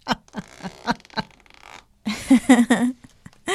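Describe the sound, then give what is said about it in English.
Zipper on a laptop case being pulled open: a run of short, raspy bursts followed by a louder, denser stretch of zipping. “I just can hear the zipper.”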